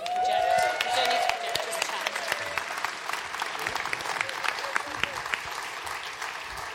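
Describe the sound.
Church audience applauding to welcome a visiting speaker at Hope Central, a steady, dense wash of many hands clapping that stays even and full throughout.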